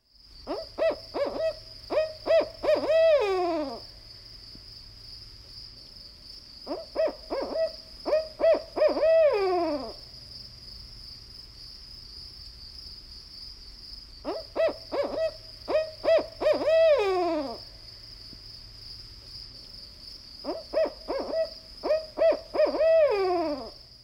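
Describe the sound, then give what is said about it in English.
A barred owl calls in four separate bouts of rhythmic hoots. Each bout builds from short, clipped notes to drawn-out, wavering hoots that slide downward, over a steady, faint high-pitched whine. “Now listen to the barred owl, which calls out a distinctive rhythmic series of 8 or 9 hoots.”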